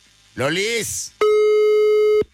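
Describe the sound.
A telephone line tone sounds as one loud, steady electronic beep about a second long, preceded by a short voiced sound.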